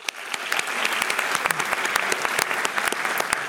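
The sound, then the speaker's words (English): Audience applause fills the hall after trustees are thanked at an evening program: a steady, dense wash of many hands clapping, with sharper individual claps popping out above the even roar throughout. “Let's give them a hand.”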